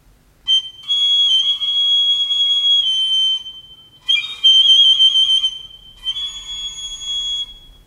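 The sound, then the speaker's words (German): A whistle blown for help: three long, shrill, steady blasts with a slight waver. The first blast is the longest, and short gaps separate them, with no voices. “Auf dieser Pfeife pfiff er um Hilfe zu Gott.”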